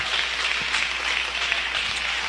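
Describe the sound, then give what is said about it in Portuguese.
A church audience claps its hands in praise. The clapping is a steady, dense patter that holds at an even level for the whole stretch, with no voices over it. “Que Deus abençoe, poder sentar um instante e louvar a Jesus com as palmas.”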